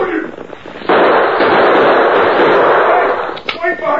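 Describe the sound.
A gunshot in a western-style shootout: one sudden loud blast followed by a long, rushing, noisy tail that holds for a couple of seconds before dying away.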